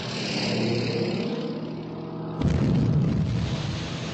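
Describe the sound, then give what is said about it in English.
A torpedo explodes in the water during a naval attack: a steady low drone gives way to a sudden deep blast that rolls on as a heavy, sustained rumble. “Torpedo exploded. It's hit the water, sir. There's another one.”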